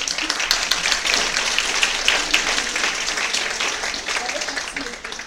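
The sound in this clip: Warm audience applause greets a speaker taking the floor, a busy crackle of many hands clapping at a fairly loud, slightly uneven level that eases off a little toward the end.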